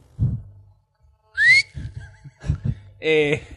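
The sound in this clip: A person gives a quick, sharply rising whistle. It sits among a few short, low thumps and a brief buzzy, harmonic tone near the end.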